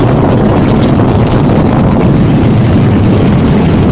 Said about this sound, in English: Liftoff of Space Shuttle 5 to broaden our view of the universe through the Hubble Space Telescope. At that moment, we're generating just under 8 million pounds of thrust. This is what it looks like from inside.